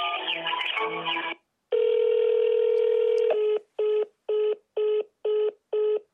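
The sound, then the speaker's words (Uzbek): Telephone keypad tones dial an extension on a courthouse automated phone line: sustained tones at first, then five short, evenly spaced beeps of matching pitch, with no voices. “Aradığınız kişinin dahili numarasını biliyorsanız lütfen tuşlayın.”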